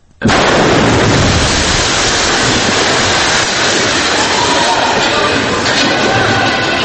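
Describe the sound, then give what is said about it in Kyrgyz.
A deafening explosion bursts in abruptly at full loudness, then gives way to a dense roaring rumble that stays steady and heavy for several seconds. “Мындай жер астын үстүн болгондой кулак тундурган жарылуу жөнөкөй адамдарга үрөө учурган көрүнүш катары сезилсе”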